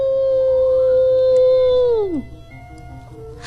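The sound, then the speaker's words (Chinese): An animal howling in the distance across tall-grass plains: one long, steady, harmonically rich tone that drops steeply in pitch at the end, then quieter background sound. “小狐狸竖起耳朵，听到远处传来一阵嚎叫的声音。”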